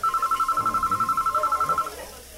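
A telephone rings as a rapid, even train of short high electronic pulses at one steady pitch, cutting off shortly before the end.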